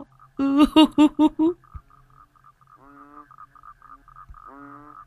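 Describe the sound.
Frogs croak in a Vietnamese audio drama about a man catching frogs to fill a basket. A voice speaks loudly at first, then two short, throaty croaking bursts rise from a quiet, steady background.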